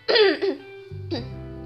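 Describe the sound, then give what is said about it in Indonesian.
A person coughs, with a couple of short, rough bursts followed by a brief voiced hum and another throaty burst, like a cough trailing into throat clearing. “bentar-bentar agak batuk nih”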